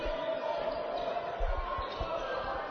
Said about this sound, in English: Fordham just dribble this out here.